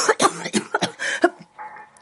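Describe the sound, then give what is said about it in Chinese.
Coughing from a man choking on a mouthful of liquor, a rapid string of harsh, sputtering coughs that trail off into a quieter, raspy tail. “那话让刘振东一口酒呛进了嗓子眼儿。”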